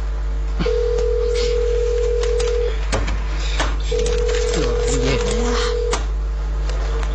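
A telephone call rings on the line with two long, steady ringback tones separated by a pause. A few sharp clicks sound over a low constant hum.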